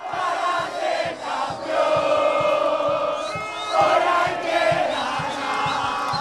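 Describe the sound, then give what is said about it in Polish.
Football fans roar and cheer in the fan zone outside the stadium in Atlanta after a late comeback win, with a loud, sustained crowd din and a steady rhythmic thumping underneath. “Strefa kibica przed stadionem w Atlancie oszalała.”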